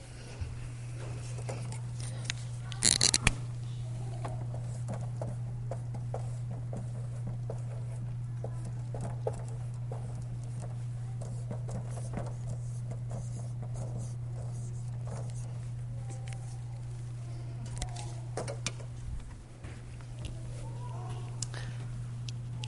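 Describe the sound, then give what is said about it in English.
Someone writes on a board during a church sermon, making faint scratching and tapping strokes over a steady low electrical hum, with one louder knock near the start. “I'd like to write the thought on the board.”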